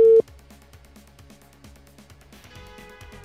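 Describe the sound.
A telephone call tone on an unanswered call: a short, loud tone at the start, then quieter background, with a faint tone returning near the end.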